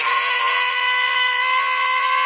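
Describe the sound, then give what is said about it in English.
A vocalist's warm-up scream before a show, a loud, harsh sustained vocal tone held at a fairly steady pitch with a bright, buzzy edge. “I thought the first one I should show you is my warm-up scream. So I do this before shows for about an hour, and I start off a little bit low, then I get higher as I go.”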